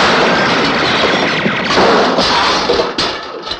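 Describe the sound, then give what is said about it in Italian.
Gunfire: heavy, sustained shooting blurs into a dense, loud roar, with a few sharper cracks standing out toward the end. “Questo sì che si chiama sparare.”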